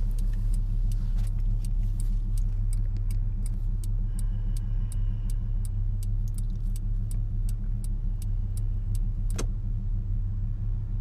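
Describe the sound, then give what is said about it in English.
Steady low engine rumble and road drone inside a moving car, with a rapid, regular ticking running through most of the stretch and no talking. “funny how I'm always driving as I do these podcasts.”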